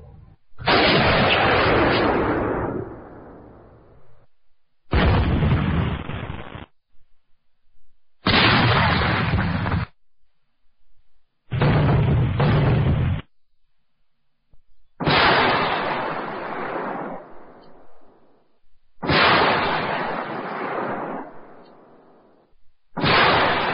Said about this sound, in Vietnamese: Thưa quý vị, pháo binh quân lực Việt Nam Cộng Hòa